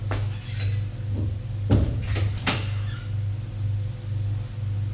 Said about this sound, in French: Elle frappe avant d'entrer. Et entre.